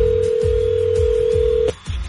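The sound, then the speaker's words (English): A telephone call is placed to a contest winner: a steady, mid-pitched line tone holds, then cuts off abruptly and is followed by a brief burst of sound. “We have tickets to see Shawn Mendes September 28th at the Budweiser stage, the first time he's ever played there, and we're calling our winner.”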